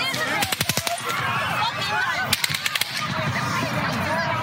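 Gunfire from a real gun: two quick clusters of sharp, rapid cracks, each a short run of several shots, standing out over a steady, busy background noise.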